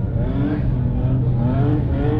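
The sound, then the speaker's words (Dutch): Race cars rumbling as they line up on a track after crashes, ahead of a formation lap under a yellow flag. A steady, loud low engine drone with layered tones that waver slightly in pitch. “Auto's beginnen ondertussen wel weer zichzelf op te stellen.”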